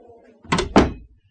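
A door is opened and closed: two loud, close thuds in quick succession, then quiet.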